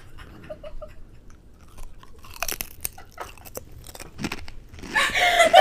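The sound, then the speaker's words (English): Someone bites into and chews a long, crunchy chip. Sharp, crisp crunches come in a few scattered bursts and grow louder and denser toward the end. “to take a chip from the back. Oh, that's a long chip. I don't think I can put it all in my mouth.”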